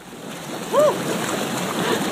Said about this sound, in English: That bubbling sound is because Alicia's sitting in the hot tub recording while Matt's at the edge of the pool.